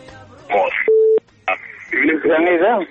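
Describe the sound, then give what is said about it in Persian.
Telephone call connecting on a Dari-language radio phone-in, a brief steady mid-pitched line tone sounding alone between bursts of talk from the host and the phone line. “میریم به طرف تماس و ببینیم کدام عزیز است.”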